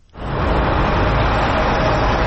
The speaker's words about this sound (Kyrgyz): Көчө абал режиминин бүтүшү менен Бишкектин ири көчөлөрүндө мурдагыдай унаа тыгындары пайда болду. Жол инспектору Лев Толстой жана Некрасов көчөлөрүнүн кесилишиндеги машиналардын агымын көзөмөлдөп жатат.